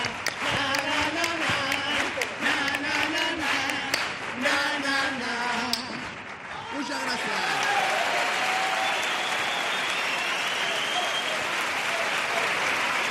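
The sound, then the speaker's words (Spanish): An audience gives a cuarteto a standing ovation. The group's last sung notes carry into roughly the first half, then loud, continuous crowd clapping and cheering take over and hold steadily to the end. “con gran parte del público en pie, ovacionando cuarteto, cuarteto. Oye, pues ha gustado a la gente.”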